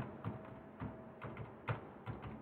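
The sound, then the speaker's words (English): Digits being typed on a computer keyboard: a few faint, irregularly spaced key taps over a quiet, steady background hum. “Once I hit OK and now type in my digits,”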